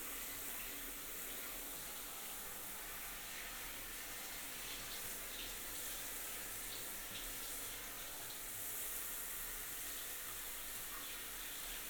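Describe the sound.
Water runs from a tap at a bath in a steady, even rush that lasts throughout and stays faint. No voices are heard.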